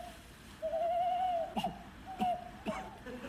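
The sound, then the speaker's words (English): An owl hooting, with long steady mid-pitched notes broken by a few brief sharp, cough-like bursts, fairly faint over quiet background hiss. “What was that? An owl. With a cough?”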